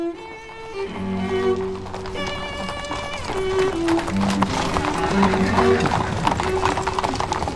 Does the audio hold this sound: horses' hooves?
yes